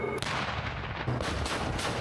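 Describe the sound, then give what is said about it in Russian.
Loud gunfire from tank crews' live-fire training alongside tank support combat vehicles, a few sharp heavy blasts standing out over a dense, continuous roar of shooting. “достигаются проведением ежедневной подготовки с боевой стрельбой танковых экипажей при взаимодействии с боевыми машинами поддержки танков «Терминатор»”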